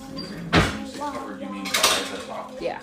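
A metal lid goes over a pan sprinkled with rice flour, giving two sharp clanks of cookware with lighter kitchen clatter in between.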